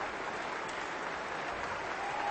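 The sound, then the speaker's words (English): A concert audience on its feet giving a standing ovation after a festival orchestra performance of a violin concerto. It is a dense, continuous roar of clapping that stays steady and full throughout, with no voices standing out. “Now the audience is on its feet. Hadalek bows and shakes the conductor's hand. The ovation continues as Hadalek turns to the orchestra and applauds them.”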